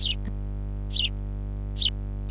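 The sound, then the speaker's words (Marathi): A sparrow chirps in four short, high, bright calls spaced at fairly even intervals over a constant low electrical hum. “ए चिवताई, ए चिमणे, तुझं काय जातं वे चिवचिवायला?”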